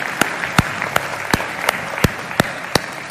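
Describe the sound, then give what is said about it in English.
A church audience applauds to welcome new believers, dense clapping with a steady rhythmic beat of sharp, loud claps running through it. “Hey, can we put our hands together and welcome new believers into God's family?”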